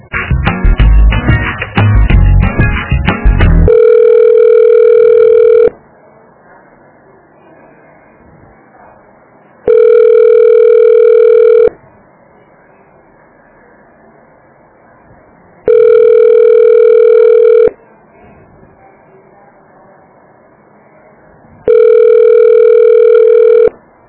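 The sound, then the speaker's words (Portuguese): Unanswered call to a reception desk: after a brief burst of noisy sound, four long, steady ringback tones of about two seconds each repeat at regular intervals, with quiet gaps and no one picking up. “Eu estou ligando para a recepção, mas ninguém atende.”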